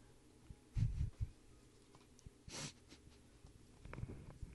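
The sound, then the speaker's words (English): Wheezing, raspy breaths, faint and uneven, with low snort-like bursts early and a single breathy hiss in the middle, no talk. “I don't think his wheezing is languages either”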